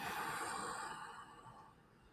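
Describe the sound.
Airy breathing from a person doing a guided breathing exercise: one long, steady breath lasting about two seconds that fades softly toward the end. No talk is heard over it.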